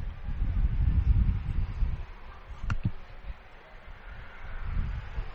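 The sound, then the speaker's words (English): An industrial fan blows against the microphone, creating low, rumbling wind buffeting that surges and eases in uneven gusts, with a brief click near the middle. “Got a nice industrial fan, and so if you hear the wind, that's me. That's the fan that is on me.”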